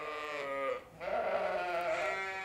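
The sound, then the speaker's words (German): Sheep bleating on a sheep farm in Aukrug near Neumünster: two long, loud, harmonic bleats, the first breaking off before a short pause and the second carrying on steadily to the end, with no talk. “Eine Schäferei in Aukrug bei Neumünster.”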